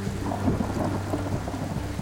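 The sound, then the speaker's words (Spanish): Heavy rain and thunder fill a storm heard from inside a house. Rain hisses steadily throughout, and low thunder rumbles beneath it with no break. “oyendo caer la lluvia que parecía no parar. Los truenos cada vez más sonoros y el resplandor de los relámpagos parecían traspasar las rendijas de la casa.”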